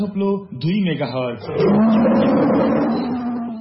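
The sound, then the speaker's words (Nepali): A tiger roar sound effect in a radio station jingle: a deep, rasping roar swells up partway through and holds loudly to the end, preceded by voice-like tones at the start. “गर्जन छ सधैँ बाघ झै, radio tiger”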